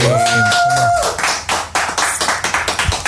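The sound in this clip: Audience applause at a music awards ceremony for album of the year: a brief tonal musical sound gives way to steady, rhythmic clapping that continues to the end.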